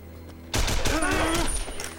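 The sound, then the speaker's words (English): A rapid burst of rifle fire from a windowsill: after a brief quiet, many loud, cracking shots erupt and keep going almost without a break to the end. “props the rifle on the windowsill and fires madly”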